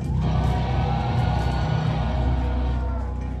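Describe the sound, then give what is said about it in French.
Concert crowd at the MJC venue of Trépied-en-Valois cheering for a local bands gig: a loud, continuous roar of voices with shouts and whoops mixed in throughout. “Alors je veux que vous fassiez du bruit pour eux. Faites du bruit pour la MJC.”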